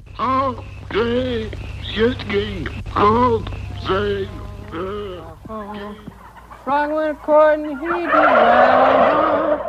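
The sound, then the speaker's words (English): Many turkeys gobble together in a pen holding about 400 birds, with a song played to them. Strong, wavering calls come in bursts and overlap one another above a low steady drone, building into a dense, rough chorus near the end. “he's actually playing a song, you know, sitting in a pen with 400 turkeys, which are all gobbling and stuff like that,”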